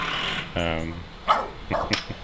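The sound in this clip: A dog barks a few times in short, sharp bursts after a longer drawn-out tonal sound, with some talk around it.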